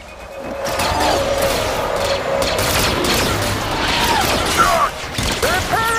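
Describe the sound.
Rapid gunfire fills a fight scene, a dense, continuous barrage of loud shots and blasts that runs without a break.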